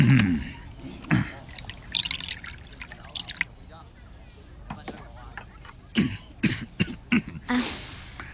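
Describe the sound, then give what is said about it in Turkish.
Wine is poured into a bowl in short bursts of trickling and dripping liquid, with a cough partway through. “Bana şarap ver. Tamam. Bir kase doldurayım.”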